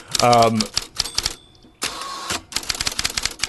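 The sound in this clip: Typewriter keys clacking in quick irregular bursts, with a brief voice at the start and a longer rasping burst in the middle before the rapid key strikes resume.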